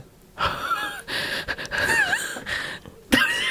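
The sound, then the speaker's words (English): A person crying takes shaky, unsteady breaths: a handful of uneven gasping inhalations with wheezy, trembling tones and short pauses between them. “It's my unsteady breath.”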